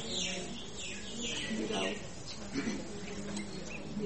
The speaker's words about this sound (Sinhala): ගිරව් කය ගහනවා.